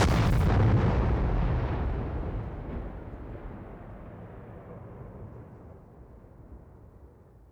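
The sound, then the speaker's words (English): A burning ship, the SS Mont Blanc, explodes in one huge deep blast. It is loudest at the very start, then rolls into a long, dull rumble that fades steadily over about seven seconds. “At 9:04 and 35 seconds, the SS Mont Blanc exploded.”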